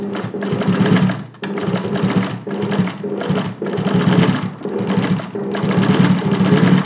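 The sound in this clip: A sewing machine runs in bursts with a rapid, steady mechanical whirring and stitching hum. Several runs are separated by short pauses.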